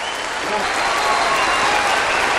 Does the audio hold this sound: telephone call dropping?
no